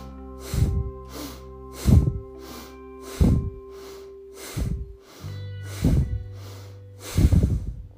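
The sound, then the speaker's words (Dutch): Bhastrika yoga breathing in a seated twisted pose: six forceful, evenly spaced nasal breaths, each a sharp rushing burst, over a soft sustained instrumental drone. “In deze zittende gedraaide houding doe je wederom 7 bastrika's. Komt-ie.”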